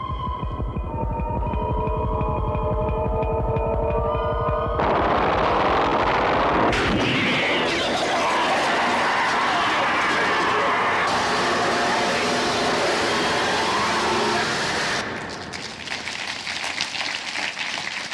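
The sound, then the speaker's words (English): Ominous droning hum and heavy throbbing pulses from the trailer for the 40-year-old science-fiction film Alien, a loud, dense, sustained soundscape that shifts abruptly in stages and eases slightly near the end, with no talk. “But I thought, since Alien is 40 years old, here's the trailer for Alien 40 years old.”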